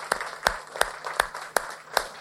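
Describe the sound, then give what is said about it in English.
Faint audience applause at a trucking company meeting, heard as hands clapping in a steady, evenly spaced beat of about six sharp claps. “That's worth a round of applause. No doubt. Give yourself a hand.”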